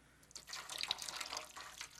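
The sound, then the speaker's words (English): Hot water runs from a tap in a soft, steady splashing stream with a fluctuating hiss, fairly faint and without voices. “More hot water.”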